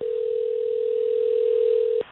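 A telephone dial tone sounds as a call is placed: one steady, unbroken hum that holds at an even level for about two seconds, then cuts off abruptly.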